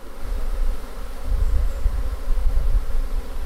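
Honeybees buzz as they are moved into a hive box: a steady, dense, low humming drone that swells and dips slightly without break.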